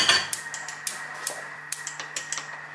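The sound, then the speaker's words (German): A casserole pot set on a kitchen stove: light metallic clicks and taps in an irregular series, with many small, sharp knocks over a faint steady hum. “Also, Kasserolle auf den Ofen.”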